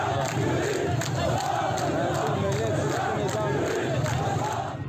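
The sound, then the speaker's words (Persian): A night protest crowd in Khuzestan, during summer, chants a well-known Arab Spring slogan. Many voices repeat it together in a loud, steady, rhythmic pulse that continues throughout. “شعار معروف بهار عربی در شب‌های تابستان خوزستان، شعاری که دست کم رهبران 3 کشور عربی را سرنگون کرد. آنها خواهان سرنگونی نظام هستند.”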